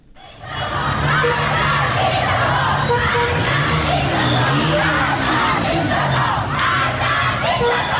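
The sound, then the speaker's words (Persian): Schoolgirl protesters in Qom, Iran, chanting the slogan "death to the dictator". A large crowd of voices shouts in loud, continuous unison, with rhythmic swells in the chant throughout. “شمار از دختران در قم چادرهایشان را در دست گرفتند و شعار مرگ به دیکتاتور سر دادند.”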